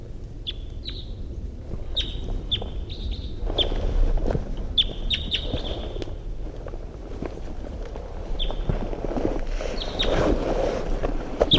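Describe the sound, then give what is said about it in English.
Short, high chirps from a wild bird repeat many times over a steady rush of wind noise, sharp and clear against the low background. “Wild bird's coming in. Wild bird. In flight. Wild bird song phrase.”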